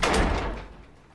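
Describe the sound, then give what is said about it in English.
A front door shuts with a single solid thud whose sound decays over about a second, heard alone. “Omri steps over to the front door and heads outside, closing the door behind him.”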